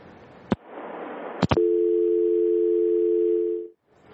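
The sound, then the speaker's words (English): Telephone dial tone on a line after a caller dropped: a couple of sharp clicks, then a steady, even tone holding for about two seconds before it cuts off. “we just lost our caller”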